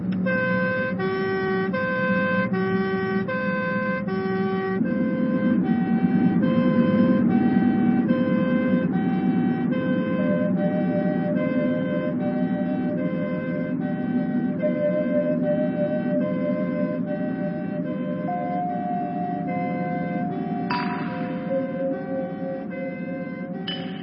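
Loud emergency-vehicle siren wailing continuously, its tones stepping between pitches, with a harsher blaring burst near the end over low road rumble.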